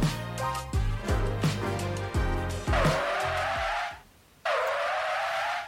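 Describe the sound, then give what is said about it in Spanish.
Car brakes with tires screeching. Two long, high squeals sound in succession, separated by a brief moment of near silence. “Salió dos veces la frenada, perdón.”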